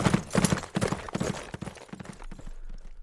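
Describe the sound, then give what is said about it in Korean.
Quick, rhythmic hoofbeats of a horse galloping through a crowd of soldiers in battle, loud and steady at first, then thinning out toward the end. “유팽로가 말을 달려 어지러운 군사들 속을 뚫고 고경명에게로 달려갑니다.”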